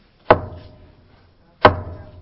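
Two sharp, solid knocks on a monastery door, spaced over a second apart, each a hard wooden thud that dies away quickly, alone with no voices.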